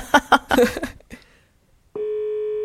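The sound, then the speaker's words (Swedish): Telephone ringing tone as an outgoing call connects: after a few moments of talk and a short silence, a steady, even electronic tone begins and holds unbroken to the end. “ska vi inte ringa upp honom nu? Ja, vi gör det.”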